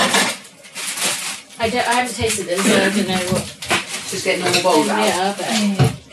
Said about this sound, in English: Just getting normal bowls out.